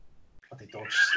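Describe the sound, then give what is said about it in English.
A dog snores in a brief nasal rasp that swells louder over about a second, following faint low sounds at the start. “Jesus, that was the dog snoring.”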